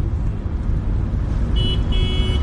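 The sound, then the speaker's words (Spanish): A driving-school car moves through narrow streets, giving a steady, loud, low engine-and-road rumble that stays constant throughout, with a thin high tone appearing briefly near the end. “el coche de la autoescuela continúa avanzando”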